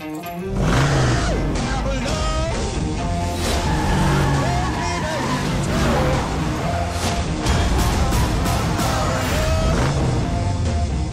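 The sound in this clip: A car engine revs loud and continuously, its rough, throaty growl rising and falling in pitch across about eleven seconds.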